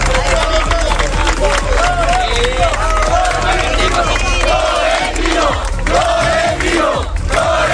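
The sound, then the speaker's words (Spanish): A loud crowd of mostly Real Madrid supporters greets club president Florentino Pérez in Ceuta with cheering, shouting and chanting, a continuous dense roar of voices throughout. “Y así era recibido el máximo mandatario del Real Madrid por parte del público, la mayoría seguidores del equipo blanco, cuando veían al presidente allí en su ciudad.”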